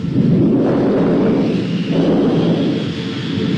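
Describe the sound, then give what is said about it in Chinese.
Thunder of an approaching storm, used as a sound effect in a Beijing opera performance. A continuous deep, rolling rumble swells a couple of times. It is loud throughout, with no voices. “暴风雨要来了，”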